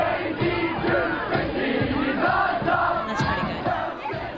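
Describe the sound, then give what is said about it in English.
A crowd of boys sings along loudly at a boys' school formal in Melbourne in 2010. The massed, ragged chorus of voices carries a melody at a steady, full volume throughout. “Listen to the audience. California, this is what happened at the school formal.”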